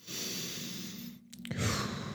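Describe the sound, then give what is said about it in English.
Slow, deep breathing: a long, steady, breathy draw of air, a brief pause, then another fuller breath. There is no talk. “breathe. Take some time to breathe.”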